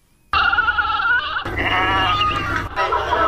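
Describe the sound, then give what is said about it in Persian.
Goats and sheep bleat loudly and almost without pause at a livestock market in Kabul's 500 Family area ahead of Eid al-Adha, with several overlapping calls forming a continuous chorus. “اکنون بیایید بشنویم که بازار فروش مواشی در آستانه عید قربان در افغانستان چی حال و هوایی داشته. در این گزارش با شماری از خریداران و فروشندگان مواشی صحبت شده. گزارش با صدای مواشی آغاز می شود.”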